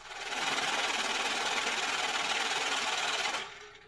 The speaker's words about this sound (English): Let's give it a money machine.